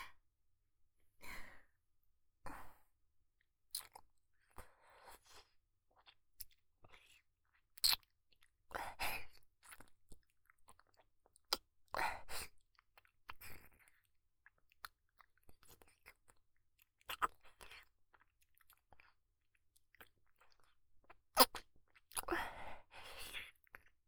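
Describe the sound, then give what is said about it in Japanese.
Wet kissing and lip-smacking sounds, with soft breathy sighs, arrive in intermittent clusters of quick smacks separated by near silence. No words are spoken. “キス、興奮しちゃうね。唾液、おいしい。ねえ、もっとしよう。”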